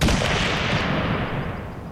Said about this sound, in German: Dann fällt ein Schuss.